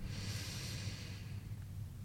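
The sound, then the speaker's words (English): Slow, deep breath drawn in during a guided meditation, a steady soft airy rush that holds at an even level for about two seconds with no speech. “I invite you to join me in three more breaths. So breathing in”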